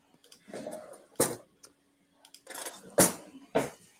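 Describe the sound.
Food is set down into a cooking pan with a few sharp clattering bursts, brief scrapes and knocks between them, fairly loud and with no talking.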